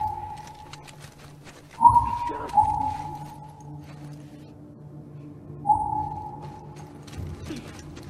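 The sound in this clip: A video game listen-mode cue that locates a nearby item: a few soft, hollow whistle-like tones, each held briefly and separated by pauses, some beginning with a light thump over a quiet background hum.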